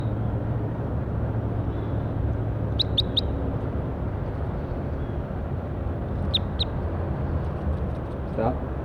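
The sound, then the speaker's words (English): Bird song recorded outdoors: three quick high chirps, then two more a few seconds later, thin and bright above a steady wash of rumbling background noise. “Recording bird 48. Stop. Start recording bird 57.”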